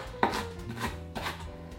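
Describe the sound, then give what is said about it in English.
A knife roughly chops a stemmed ingredient for vegan chana masala, making three dull, uneven chopping thuds with some faint clatter between strokes. “And I'm just gonna give it a rough chop.”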